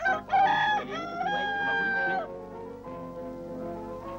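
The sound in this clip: A rooster crows, a long, loud, harmonic call drawn out over about two seconds; a man strokes the bird at a petrol station where an intercity bus has stopped.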